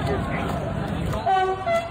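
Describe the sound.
A passing train sounds its horn in short tonal blasts toward the end, over a dense, loud wash of crowd noise and voices.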